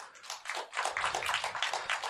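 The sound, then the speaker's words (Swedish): Audience clapping to welcome first-time attendees at a comedy evening, a dense, continuous patter of many hands that swells slightly after the opening moments and then stays steady. “Applådera ni som inte har varit här förut.”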